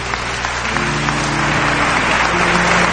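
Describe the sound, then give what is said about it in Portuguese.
An audience at a Catholic service applauds the word of God with thick, continuous clapping from many hands. It stays loud and steady, swelling slightly toward the end. “Isso, aplauda a palavra de Deus.”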